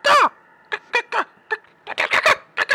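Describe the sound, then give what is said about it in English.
A voice imitates giant birds cawing down a hallway: one long, harsh squawk, then a run of shorter, rough caw-like bursts in an uneven rhythm, loud and alone. “There's two gigantic birds come flying at you.”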